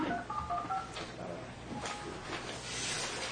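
Touch-tone beeps from a telephone keypad dialing an account code: a quick run of several short, clear tones early on, then steady hissy line noise.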